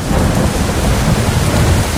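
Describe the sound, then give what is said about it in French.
A thunderstorm heard from inside a car: heavy rain pours in a dense, steady hiss over deep, low rumbling thunder, loud and unbroken throughout. “Bon, là, il y a de l'orage. Hop, là, il y a toujours de l'orage.”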